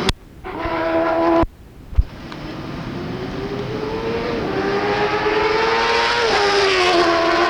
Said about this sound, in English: I'm going to record some of the bikes as they come by.